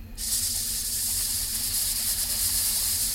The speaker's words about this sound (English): It's like a static or a hiss or something.